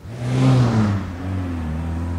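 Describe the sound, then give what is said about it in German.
A car drives past at night, its engine hum carrying steady low tones under a broad rushing noise that swells loud early, eases off, then holds at a lower level with no voices. “Als der Wagen vorbei war, hörte Tom”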